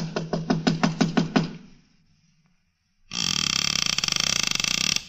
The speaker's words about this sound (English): The town seemed deserted, but I finally took a chance and knocked on a door.